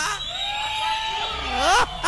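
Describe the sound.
A crowd shouting and whooping, with loud, sustained cries that swell and dip throughout and sharper rising and falling calls near the end.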